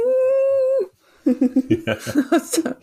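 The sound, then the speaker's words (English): A person imitates little whines, holding one long, steady whining note, then breaking into many short whimpering yelps. “I really liked her reacting to him telling her that where she just laid out these little whines and be like,”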